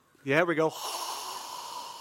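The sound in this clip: A voice imitates breath blown out through the nostrils: one short, loud, snort-like burst, then a long, soft hiss that trails away.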